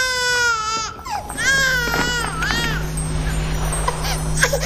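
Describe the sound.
An infant cries in several strained, wavering wails over the first few seconds. The crying then eases into fainter whimpers above a steady low hum.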